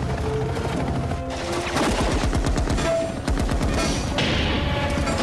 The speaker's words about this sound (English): Why are they shooting at us? Because they're unfriendly.